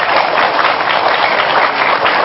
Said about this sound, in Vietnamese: Vậy các vị cho tôi tràng pháo tay đi.